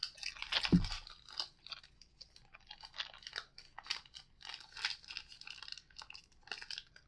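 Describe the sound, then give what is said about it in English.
Crunchy chewing of a Mounds coconut chocolate candy bar: many soft, irregular crunches and squishy bites repeat steadily, with one louder bite near the start, all faint and without talk. “I know what Mounds taste like, so let's just start with the Mounds.”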